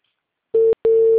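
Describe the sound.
A steady, mid-pitched telephone line tone on a call that goes unanswered. It sounds loud and alone, starting as a short burst, breaking for a moment, then resuming steadily.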